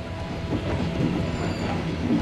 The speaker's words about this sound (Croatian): dok uskačem u gradski vlak koji vozi na sjever, prema Bandri